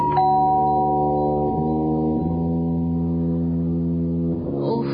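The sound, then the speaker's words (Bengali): A doorbell rings with a loud electronic chime that holds a few sustained musical tones, stepping between pitches in turn. “অনন্যার মনে হতে থাকে অনেকক্ষণ ধরে calling bell বাজছে”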